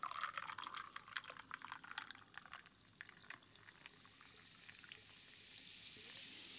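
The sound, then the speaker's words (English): Fresca soda pours into a mixed drink, a quiet splashing pour with scattered crackling fizz at first that settles into a steady, soft carbonated hiss. “now we're gonna take our Fresca that I just spilled on my computer. Good thing there's no sugar in it. And add this.”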